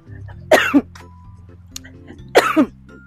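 Two bursts of coughing, each a quick double cough, break out while someone is covering a mile at a tracked pace, with a steady low hum running underneath between them.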